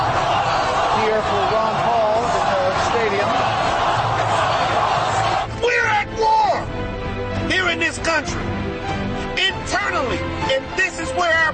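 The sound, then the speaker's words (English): A crowd of Ron Paul supporters cheers and whoops in a loud, dense roar that dominates the first half, then thins out as a voice starts talking over the fading crowd noise. “Now, question is, the cheering is happening.”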